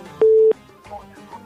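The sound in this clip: A single short, steady telephone line beep sounds as a listener's call is being connected, followed by faint talk.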